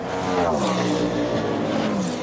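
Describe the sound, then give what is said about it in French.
Toyota race cars drive on a racing circuit, producing a continuous, loud engine drone with layered tonal harmonics and no break. “Toyota qui a ses deux voitures en tête et la numéro 7 qui va donc dans le virage 8 normalement prendre les commandes.”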